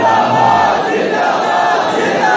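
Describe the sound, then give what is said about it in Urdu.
A crowd at a religious gathering shouts the slogan Tajdar-e-Khatm-e-Nabuwwat together, a dense roar of massed voices that holds steady and loud for the whole stretch. “آپ ایسا نعرہ لگائیں تاکہ یہ پریشانی بڑی دور تک چلی جائے. اس طرح نعرہ لگائیں, تاج دار ختم نبوت,”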